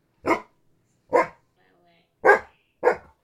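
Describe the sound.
Four short, sharp dog barks, loud and separated by clear pauses, the last two coming closer together.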